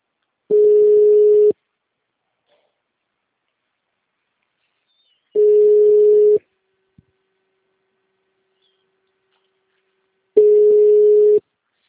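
Ringback tone on a telephone line while a call waits for someone to pick up at an extension: three identical steady mid-pitched beeps, each about a second long, separated by long silent gaps.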